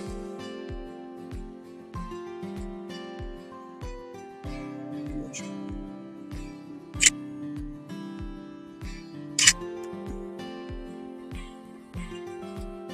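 Two sharp camera shutter clicks a few seconds apart, photographing a longhorn beetle during a summer beetle hunt in Tokyo, heard over steady rhythmic background music.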